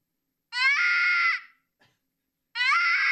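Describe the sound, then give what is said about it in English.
Two shrill, high-pitched screams from a rabbit, each a loud, sustained, harmonic wail about a second long, separated by a short quiet gap; the second scream is cut off at the end. “It's a rabbit.”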